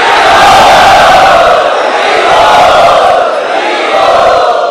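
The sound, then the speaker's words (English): A crowd loudly chanting in unison to welcome a speaker at a Hare Krishna gathering, forming a loud, sustained wall of voices. “Let us welcome him by loudly chanting.”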